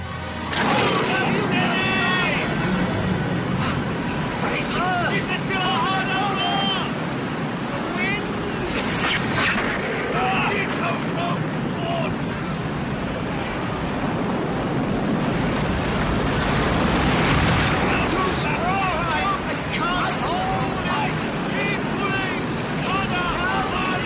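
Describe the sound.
Waves wash and wind gusts as a boat sails across a lake, a dense, continuous rushing noise that stays loud throughout, with a voice speaking over it.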